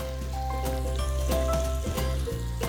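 Omelette filling of fresh and aged kaşar cheese with parsley sizzles and fries in a pan as it is stirred: a steady, fairly loud hiss with a few brief louder bursts.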